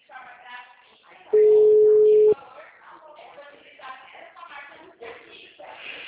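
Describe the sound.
A telephone ringback tone sounds once as a steady, loud beep lasting about a second while someone places a call, with a person talking before and after it.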